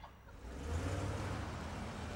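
A taxi cab drives and pulls up: a low engine and road rumble that swells after a moment and then holds steady, with no voices.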